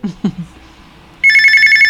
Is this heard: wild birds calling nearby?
no